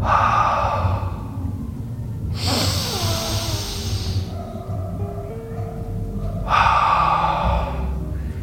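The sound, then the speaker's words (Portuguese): Breathing in and out during a relaxation exercise in which the hands are tensed and then released: long, airy breaths stand out as soft hissing swells against a steady low background. “Tensione as mãos e inspire. E agora relaxe as mãos e solte o ar.”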